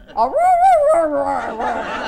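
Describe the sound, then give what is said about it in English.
A human voice imitates a small dog's playful growl with a whiny voiced tone that rises, wavers, then drops lower and rougher before fading. “I'm trying to think how she growls, it's the cutest thing.”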